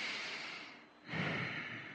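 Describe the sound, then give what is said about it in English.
A deep breath, a soft airy rush that thins briefly in the middle and then swells louder and fuller for the second half, with no voices. “Taking a deep breath”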